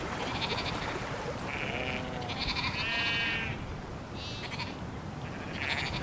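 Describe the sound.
Sheep bleating in a field beside an ancient ring fort: a few wavering, nasal calls, some short and some drawn out, rising above a steady rushing background noise.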